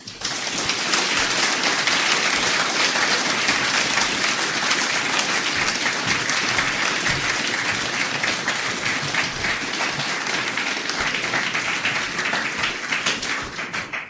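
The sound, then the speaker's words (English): Loud, dense audience applause welcomes a speaker at a political gathering. The clapping holds steady and unbroken for the whole stretch, with no voices standing out. “Can you please give a good, warm British welcome to Andreas Johansson?”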